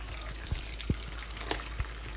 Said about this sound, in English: Okay, I'm gonna crack another one. Two eggs going in.